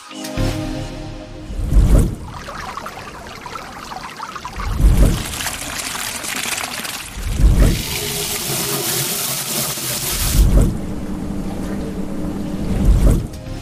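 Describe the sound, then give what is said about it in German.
Running water rushes steadily, swelling into five low, gushing surges about every three seconds over a continuous hissing flow. “ich glaube, es hat jeder erkannt, es war das Wasser”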